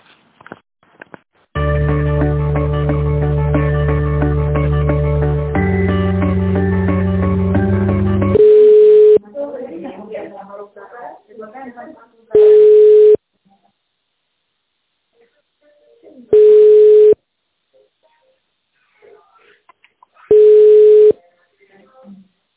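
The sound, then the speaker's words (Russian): Telephone line tones while a call is transferred: a loud sustained buzzing chord drops to a lower pitch, then four evenly spaced long beeps follow, with faint murmurs between them. “Переключу вас минутку.”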